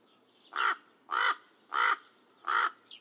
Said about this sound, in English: while crows have cawing calls.